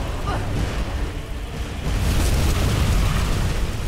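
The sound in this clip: A dragon explodes as it dies in a video game, a dense, roaring rumble that holds steady and then swells louder about halfway through.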